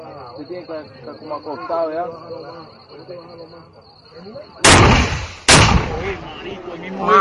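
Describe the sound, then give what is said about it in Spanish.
Gunfire in a combat setting where RPGs, grenade launchers and snipers are firing: two loud, sharp blasts strike in quick succession after a stretch of people talking. A rough, ringing noise follows each blast. “Nos están disparando con RPG, granada, lanzagranadas, francotiradores.”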